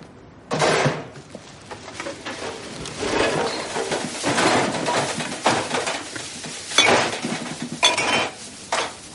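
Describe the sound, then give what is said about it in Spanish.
Empty liquor bottles are tipped from a trash bag into a bin, making loud glassy clattering and clinking. Several jangling crashes of bottles knock together in irregular bursts over about nine seconds. “Elder camina con una bolsa de basura hasta unos cubos. Retira la tapa de uno y vierte su contenido dentro.”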